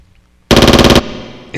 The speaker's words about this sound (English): That's an MP5, brother.